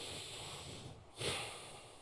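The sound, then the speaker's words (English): One breath is drawn in as a short, breathy rush through the nose or mouth. It rises out of a brief lull, peaks quickly, then fades back into steady background hiss. “I'm just gonna ask you to take a breath here.”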